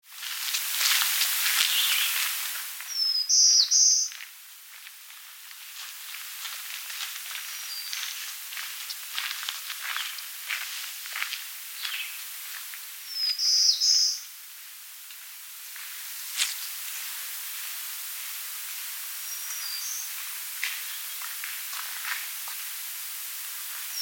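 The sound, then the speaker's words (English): Olive-sided flycatcher song: a few brief, high, whistled phrases spaced far apart over steady hiss, the last one fainter, with some rustling near the start. “Olive-sided flycatcher.”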